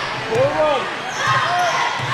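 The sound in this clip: A basketball is dribbled on a court during a game, a few low, dull bounces with brief high squeaks over a steady wash of crowd noise.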